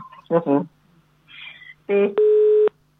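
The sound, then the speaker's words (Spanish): A telephone busy tone after a dropped call: a steady, mid-pitched beep holding for about half a second, following short bursts of voice on the line. “¡Ay! Se le cayó la comunicación.”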